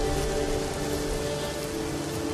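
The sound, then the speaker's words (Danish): Heavy rain pours down in a steady, dense, loud hiss with no pauses and no voices. “Det regner stadig meget voldsomt.”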